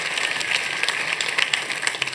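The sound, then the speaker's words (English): Audience applause for a speaker: a steady, dense patter of clapping hands fills the whole stretch at an even level, with no talk over it. “Give Dave a round of applause.”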